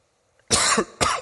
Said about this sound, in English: I'm sorry, I hate coughing into a microphone.